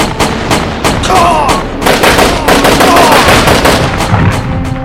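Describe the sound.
Rapid gunfire aimed at a fast-moving tank: loud bursts of sharp shots fired in quick succession throughout, dense and continuous with only brief gaps.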